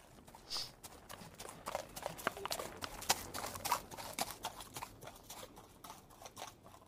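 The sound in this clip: Horse hooves clip-clop as a rider rides off, a faint run of many quick, light hoof strikes that stays fairly steady throughout.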